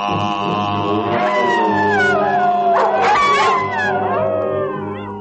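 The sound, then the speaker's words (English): A wolf howls in long, wavering cries that slide up and down in pitch. The howls are loud and sit over a steady low droning tone. “While the wolf in nightly prowl, bays the moon with hideous howl.”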